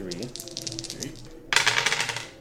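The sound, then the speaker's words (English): Dice clattering for a tabletop role-playing damage roll: scattered light clicks under talk, then a louder, dense burst of rattling and tumbling clicks that carries on to the end. “That's the dice.”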